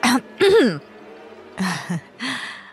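A woman clearing her throat loudly and sharply to interrupt, in four harsh, voiced bursts separated by short quiet gaps, with no other talk around them.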